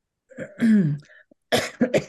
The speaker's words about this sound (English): excuse me, getting over this cough.